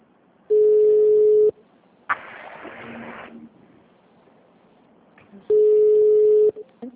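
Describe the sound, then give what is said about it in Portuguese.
Telephone ringing tone of an incoming call: two steady mid-pitched one-second tones about four seconds apart, with a brief burst of rustling noise between them. “Começou a chamar agora, depois você entrou. Tá chamando pra mim aqui.”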